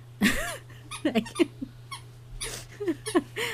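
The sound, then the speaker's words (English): A dog's favorite squeak toy squeaks many times in quick, irregular bursts as the dog plays with it. The squeaks are short, high-pitched and bouncy, sounding over a low steady hum. “sorry, I could hear the squeak toy. Sorry, my dog. It's okay. That's your favorite toy.”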